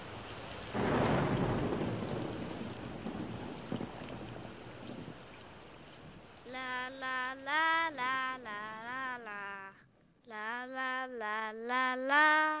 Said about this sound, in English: the patter of rain. All of these sounds are parts of nature's music.